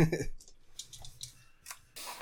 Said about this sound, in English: Roll your dice. 7d8.